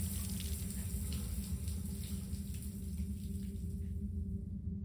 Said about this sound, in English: I clean off the razor and watch my blood drain away.